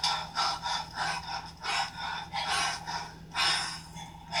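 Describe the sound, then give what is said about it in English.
Heavy, laboured, asthmatic-sounding breathing, a steady run of many raspy, snorting inhales and exhales at a quick, even rhythm, fairly faint and with no talk. “Now, the way he's breathing right now, people, 200% accuracy as far as me walking up a flight of steps being asthmatic.”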